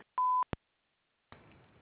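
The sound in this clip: An answering machine beep tone: one loud, steady beep lasting about a quarter second, then a short click, silence, and a low hiss of open line.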